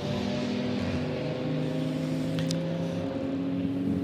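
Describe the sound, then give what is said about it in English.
Onboard engine sound from a red 992-category race car during the Dubai 24-hour endurance race. It is a loud, steady, harmonic engine drone that holds without a break throughout, with no talk. “on board now with the red Camel Jordans.nl car.”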